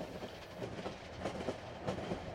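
A train rolling along the tracks through California, a faint, steady low rumble with soft, irregular clacks of wheels over rail joints running throughout.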